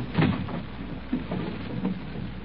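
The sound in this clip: A kitchen drawer is pulled open, heard as a few faint wooden scrapes and knocks spread out over a couple of seconds, with a low background hiss and no voices.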